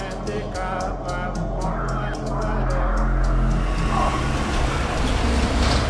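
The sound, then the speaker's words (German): A car rumbles over a potholed gravel road in Port-au-Prince, Haiti, a loud, continuous low rumble that runs unbroken throughout. “Ein Auto rumpelt über die löchrige Schotterstraße.”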